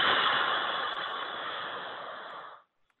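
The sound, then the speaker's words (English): One long, deep diaphragmatic breath flows out in a steady, airy rush that holds evenly for a couple of seconds, then stops abruptly into silence. “let's take a deep diaphragmatic breath in for the count of four, and then out for longer than four.”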